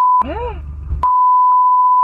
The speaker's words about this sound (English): I just left the last beep in there because it's funny.